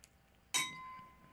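A single bright clink of coffee mugs tapped together in a toast, sharp at the strike and then ringing with a clear tone that lingers and fades over about a second.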